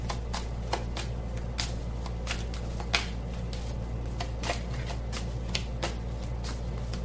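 Tarot or oracle cards are shuffled with a steady run of soft taps and flicks over a constant low hum.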